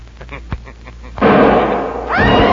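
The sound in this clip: A gunshot rings out, a brief sharp pop followed by a loud, broad blast of noise that holds steady to the end.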